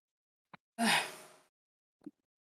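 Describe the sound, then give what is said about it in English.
A person imitates a deep gasping breath in, like someone surfacing from underwater: a tiny click, then one loud, rushing, breathy inhale that tapers off over under a second, followed by a short, soft throaty sound. “She's just going to kind of go... like trying to take a deep breath in like she was just underwater or something.”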